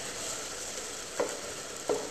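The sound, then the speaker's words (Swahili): Tomatoes sizzle as they cook and are stirred in a pan, making a steady hiss throughout, with two short scraping sounds from the stirring. “Si ndio mpaka ukoroge uhakikishe kwamba ile nyanya yanabondeka vizuri.”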